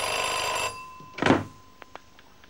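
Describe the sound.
A telephone bell rings in one sustained ring, which cuts off. A dull thunk and a couple of faint clicks follow.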